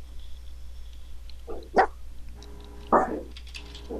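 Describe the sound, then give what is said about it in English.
A dog gives two short, sharp barks about a second apart, fairly quiet over a low steady background hum. “Can you put the dog out?”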